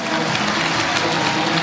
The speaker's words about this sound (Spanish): Ahí saluda Messi. La gente lo aplaude.